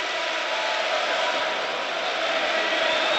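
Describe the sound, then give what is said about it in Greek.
Stadium crowd of 25–27 thousand football spectators cheering and acclaiming coach Mendilibar, a dense, unbroken roar holding at a steady loudness throughout. “ενώ όλο το γήπεδο αποθεώνει τον Μεντιλίμπαρ. Όσοι 25-27 χιλιάδες θεατές που βρίσκονται εδώ, αποθεώνει τον Μεντιλίμπαρ.”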